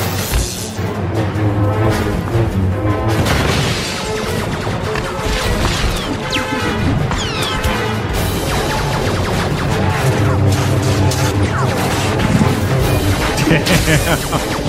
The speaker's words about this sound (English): He just created an avalanche.